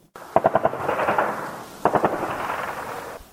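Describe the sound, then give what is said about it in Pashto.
Heavy gunfire and weapons fire rattle through a night-time militant attack on the security belt near Lashkar Gah in Helmand. Two bursts of rapid automatic shots come over a low rumbling echo. “دا د لشکرګاه ښار پر امنیتي کمربند نږدې هر شپه د وسلوالو د بریدونو او درنو وسلو د استعمال او ډزو ژغونه دي.”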